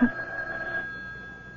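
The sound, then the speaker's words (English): A telephone rings with a single steady electronic tone that sounds for under a second, then cuts off, leaving a faint, quiet tail. “Why don't you answer the phone?”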